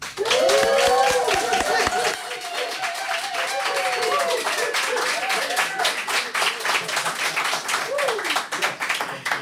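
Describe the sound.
Dense audience applause and clapping for performers at a live in-person music show. The applause is sustained and loud throughout, with whooping cheers in the first few seconds.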